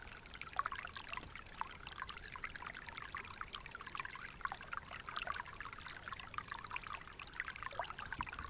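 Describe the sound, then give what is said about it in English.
Gentle ripples in the water of a calm, clear pond make a faint, continuous trickling and lapping, soft and steady throughout with no voices. “A calm, clear pond. Ripples in the water of the pond.”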